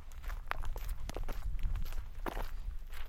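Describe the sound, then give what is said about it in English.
Footsteps walk at night on the way out to a road in winter, with light snow on the ground. Many steady, crunching steps fall in an even rhythm over a low background rumble. “After dinner, we walked the quarter mile out to the road.”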